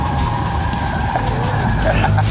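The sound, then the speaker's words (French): Car tyres squealing and skidding through a tight, wet turn during a driving lesson on a track, a sustained high screech held over the steady drone of the engine. “Virage serré, les pneus sont glissants, c'est mouillé.”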